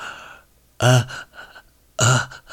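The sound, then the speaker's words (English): A voice imitates a freshly caught fish gasping for oxygen with two short, harsh, open-mouthed gasping bursts separated by a pause, with softer breathy sounds between them. “moving his mouth like, you know, a freshly caught fish is trying to gasp for oxygen. He was like moving his mouth like,”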